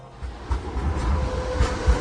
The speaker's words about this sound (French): là on sort de la gare de Francfort